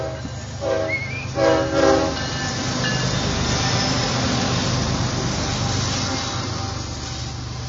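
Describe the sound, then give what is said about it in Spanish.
A train on the railway tracks in Santa Catarina gives a steady, loud rumble. Two horn blasts sound early on over the continuous roar. “¡Ahí viene el tren! ¡El tren! ¡El tren!”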